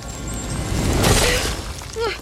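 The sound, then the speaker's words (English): A crystal object shatters inside a church in one sudden crash with a bright, splintering burst, followed by a voice. “Shards of crystal everywhere.”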